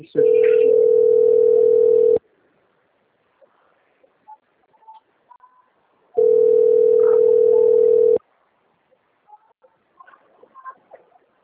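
A telephone rings with two long, steady electronic tones of about two seconds each, separated by a gap of near silence with faint scattered noises.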